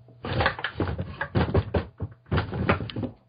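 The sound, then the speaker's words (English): Creaks and knocks from a wooden crate lid being opened, in several irregular bursts with a short pause before a final stretch, over a steady low hum. “I'm gonna open the top of the crate.”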